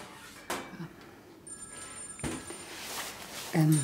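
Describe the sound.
A telephone rings with bright, high-pitched tonal bursts against a quiet background, and a voice briefly joins near the end.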